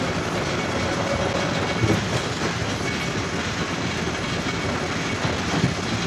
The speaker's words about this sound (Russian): Электричка трогается.